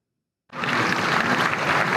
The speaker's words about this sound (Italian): Un applauso che è anche di sollievo per la direzione del partito.